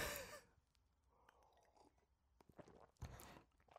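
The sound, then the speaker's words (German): A sip of a drink: faint, quiet mouth and swallowing noises with small clicks, framed by soft breaths at the start and near the end. “Ich trinke erstmal einen Schluck.”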